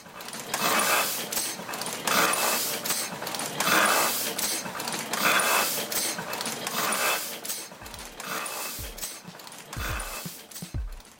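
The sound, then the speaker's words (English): A Heidelberg windmill printing press at work in a print shop, pulling in paper, making a print and delivering the sheet. It runs as a loud, steady mechanical clatter in repeating cycles, with a few low thumps near the end. “That's the sound of a Heidelberg windmill printing press recorded by weekday listener Evan on the job at Evolution Press in Ballard. The machine is pulling in paper, making a print, then delivering the sheet.”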